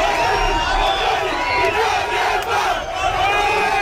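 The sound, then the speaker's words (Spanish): Neighbours cheer and shout in a loud crowd, celebrating the toppling of part of the border fence between Gibraltar and Spain; the dense, continuous roar of cheering and whoops runs unbroken throughout. “Es el sonido de cómo celebraban vecinos de esa zona la caída de la verja”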